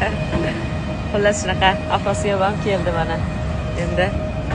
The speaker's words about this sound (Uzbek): Xullas, shunaqa afrosiyob ham keldi mana endi.